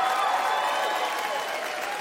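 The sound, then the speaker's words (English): Sustained applause from an audience at a live comedy show, a dense, steady wash of many hands clapping with no distinct individual claps, moderately loud and holding level for the whole stretch. “Come on, clap.”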